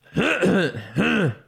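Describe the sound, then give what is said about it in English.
A man clears his throat in two harsh, gravelly bursts, loud and close together, with no other sound. “I clear my throat a lot. So I do the”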